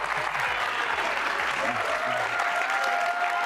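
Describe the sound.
A crowd applauds a guest on a BYU basketball show with the head coach, dense, steady clapping throughout with some voices mixed in.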